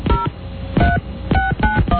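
Touch-tone dialing of a company's Los Angeles office number: several short dual-tone beeps in an uneven rhythm, with a narrow, telephone-line quality.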